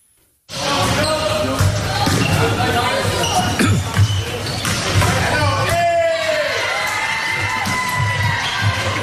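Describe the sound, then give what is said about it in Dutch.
A volleyball hall with balls bouncing and players in play: repeated thumping bounces run through a dense, steady din of shouting and cheering voices from start to end. “Ja, ik begon al helemaal te glunderen toen ik het weer hoorde. Een volleybalzaal.”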